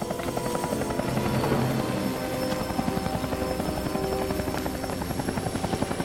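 Helicopter rotor noise with a steady, fast rhythmic chop over a broad engine roar, holding at an even level throughout with no voices.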